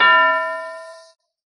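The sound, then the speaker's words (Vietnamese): A small bell struck once, giving a bright metallic clang whose ringing tone fades steadily and dies out after about a second. “Một tiếng chuông lại vang lên”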